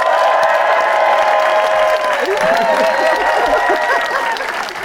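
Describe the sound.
A studio audience applauds and cheers as politician Angela Rayner is introduced as a guest: dense, loud clapping runs throughout, with whoops and shouts mixed in.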